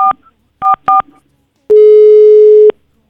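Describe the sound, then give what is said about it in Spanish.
Telephone keypad tones as a number is dialed: three short, loud dual-pitch beeps, the last two close together, followed after a brief pause by a single steady tone lasting about a second. “A ver, le estamos marcando a la tía Margarita.”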